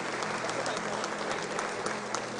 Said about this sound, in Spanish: Les voy a pedir un fuerte aplauso para el equipo de los monaguillos. Otro para el coro también. Otro aplauso para el coro.